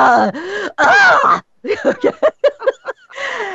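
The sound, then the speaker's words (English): A voice imitates the groaning of a woman in labour: two long, drawn-out groans, then a string of short rhythmic grunts and a final longer groan. “they're bending and they're groaning and they're making these very”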